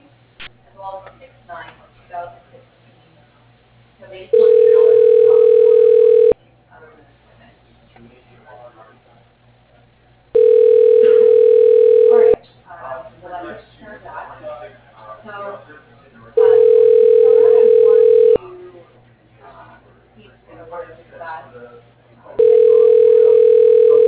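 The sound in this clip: Telephone ringback tone as a call to a bank's general manager is transferred: four steady, evenly spaced two-second tones, the last cut off, with low voices murmuring in the gaps.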